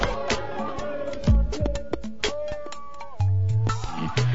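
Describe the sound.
Cat meowing, several short, tonal cries with sliding pitch in quick succession, moderately loud and without talk.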